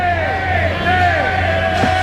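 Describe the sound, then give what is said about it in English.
A baseball crowd yells and jeers in protest during an erratic game with many walks and hit batters. The loud, steady roar of voices continues under a man talking. “They're still yelling shame.”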